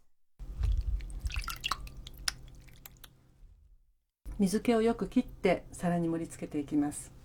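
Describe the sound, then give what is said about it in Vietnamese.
Water dripping from a piece of tofu held in the hand, a few soft drips and wet clicks at the start, then a voice speaking over the rest. “Trước khi đặt vào đĩa thì bạn hãy đặt đậu phụ lên tay để nước chảy bớt ra.”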